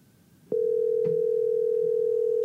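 A telephone dial tone while calling a caller, a single steady mid-pitched tone that starts abruptly after a brief quiet moment and continues unbroken and loud.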